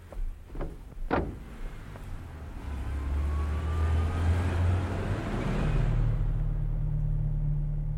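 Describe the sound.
Someone gets into a car and it drives off: a few sharp thuds come at the start, then the engine starts with a low, steady rumble that swells and shifts up a step as the car pulls away.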